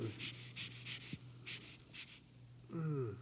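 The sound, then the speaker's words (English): Deep breathing by a patient during a doctor's medical examination, with a series of soft, rhythmic panting breaths over a low steady hum, ending in a brief stronger voiced breath. “All right, breathe in. Breathe. Breathe.”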